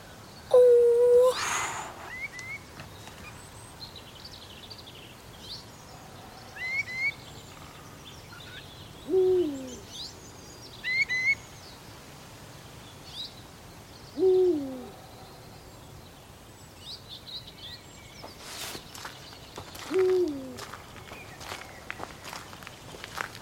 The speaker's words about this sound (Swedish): Stor, det är storspoven.